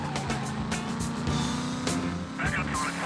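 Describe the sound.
A car drives down a street in a video game, a steady engine hum with brief whooshing bursts as it passes, under a man's talk.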